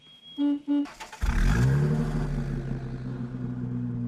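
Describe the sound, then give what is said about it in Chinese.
A car engine bursts into life and revs as the car drives off, its pitch climbing before it settles into a steady drone. Two short tonal beeps come just before it. “于是便高高兴兴地开车拉着杜任之直奔刘厚同在联谊社的住处”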